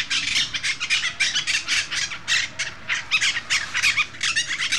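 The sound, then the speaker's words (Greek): Monk parakeets, a parrot species breeding in Athens, squawk in many loud, harsh calls that repeat in quick succession with no pause. “Είναι η μειοψητακή, αυτή η μειοψητακή. Είναι ένα από τα 3 είδη παπαγάλου που αναπαράγονται στην Αθήνα μέσα.”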